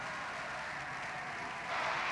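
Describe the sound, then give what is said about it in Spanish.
Socialist Party members applauding in the Spanish parliament: a soft, continuous patter of clapping that grows a little louder near the end. “Con el Partido Socialista aplaudiendo y el Popular pidiendo la dimisión del presidente.”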